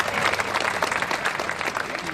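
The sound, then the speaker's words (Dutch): Crowd applause at a boat christening ceremony: a dense, even patter of many clapping hands sustained throughout. “Applaus voor Laura Dekker.”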